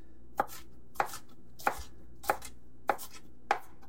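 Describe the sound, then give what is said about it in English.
Six steady, evenly spaced knife chops as food is minced and coarsely sliced. Each is a crisp, sharp thud, with no talk. “I'm going to give it just a nice, good mincing. Now, it doesn't have to be exact. Some nice coarse slices”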